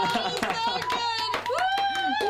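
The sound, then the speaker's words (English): An audience gives a round of applause, with a run of sharp claps beneath prominent voices that carry over the clapping. “One more round of applause.”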